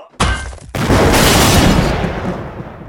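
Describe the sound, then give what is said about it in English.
A bomb hidden in an economy-sized tub of green beans explodes, starting with a sharp burst that gives way to a larger roaring blast with a long rumbling tail. “I'm about to throw this economy-sized tub of green beans at you. Also, there's a bomb in it. Look out!”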